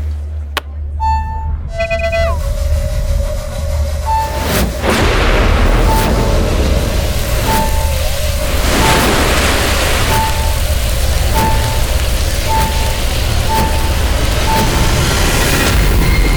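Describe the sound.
A magic portal opens after a flashing jewel is pressed. A bright chiming burst is followed by a deep boom, then a loud, steady rumbling hum with a short high tone pulsing at regular intervals.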